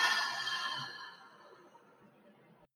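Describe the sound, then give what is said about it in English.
A slow breath is let out through the mouth during a guided grounding breathing exercise. One soft, airy exhale that starts strongest and fades gradually over about two and a half seconds, faint and alone. “We're going to take 3 grounding breaths in through the nose and out through the mouth.”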